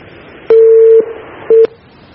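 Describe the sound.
Telephone line tones sound as a call-in caller is connected: two loud steady beeps of the same pitch, a long one and then a short one, over a faint background hiss.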